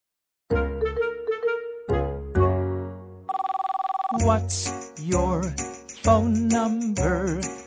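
A telephone ring sounds in a children's sing-along song: a brief, rapid trilling ring of about a second, set between tuneful sung and instrumental phrases.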